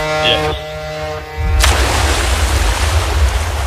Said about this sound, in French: Tu pourras plonger? Oui, je suis prêt à plonger.